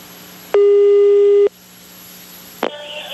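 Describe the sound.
A telephone ringback tone plays while a call connects: one loud, steady, one-second tone, then a click and faint line hiss.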